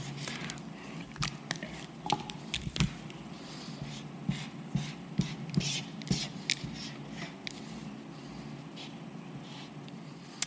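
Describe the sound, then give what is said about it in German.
Scratchy, squeaky strokes of a pen or marker drawing a temple by hand on paper: many short, faint rubbing swipes in an uneven rhythm, with brief pauses between strokes. “Ja, den Tempel muss ich natürlich noch zeichnen. Gell? So, machen wir noch einen Tempel.”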